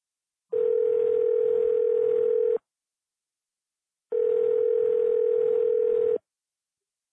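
Telephone dial tone sounds as two steady, loud, mid-pitched tones, each about two seconds long, separated by a silent gap of similar length, with no voices.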